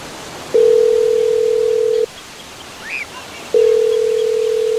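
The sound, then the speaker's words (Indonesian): Telephone ringing on an outgoing call: two long, steady ring tones of equal pitch, each lasting about a second and a half, separated by a pause, over a soft hiss. “Buruan, telepon aja.”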